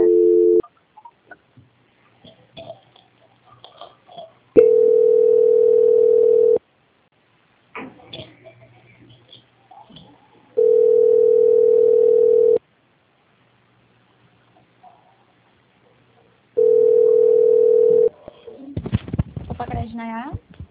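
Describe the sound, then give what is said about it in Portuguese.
Telephone line tone after a dropped call: three long, steady tones, each about two seconds, separated by longer gaps holding faint scattered sounds, with a warbling electronic burst at the end. “Caiu a ligação, né?”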